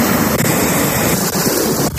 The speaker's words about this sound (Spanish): Así sonaba la tormenta de granizo que se ha registrado allí a primera hora de la mañana.